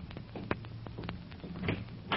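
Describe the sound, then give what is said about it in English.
A door is opened to answer a visitor, giving a faint series of clicks and light knocks from the latch and handle, irregular and quiet. “There's somebody at the door. Oh, I'll answer it, Chief.”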